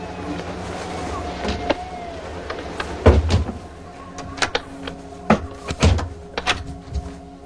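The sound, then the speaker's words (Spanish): Sharp knocks and thuds as a bedroom window is shut: a few irregular clunks and rattles over a steady low hum, with the loudest impacts in the middle and later part. “La ventana está abierta. Reagan duerme en la cama. Chris cierra la ventana.”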